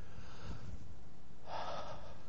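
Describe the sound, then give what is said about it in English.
Deep breathing: a quiet, soft breath is followed by a longer, more forceful exhale-like rush of air in the second half, all faint and without talk. “But it says, take a minute and breathe. I almost pass out because it's like that deep breathing.”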